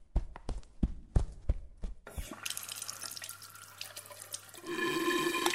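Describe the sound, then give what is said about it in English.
Water gushes from a sink in a small bathroom that isn't attached to a pipe. A few sharp knocks come first, then a steady splashing rush that grows louder toward the end. “I forgot the sink isn't attached to a pipe. Your clothes are soaked now?”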